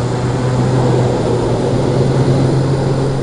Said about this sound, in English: A squadron of crop dusters takes off before dawn from the San Luis airport.